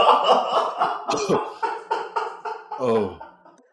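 Coughing from someone with something caught in the throat: many loud, hoarse, voiced bursts in an uneven string, some croaky and strained, tailing off at the end.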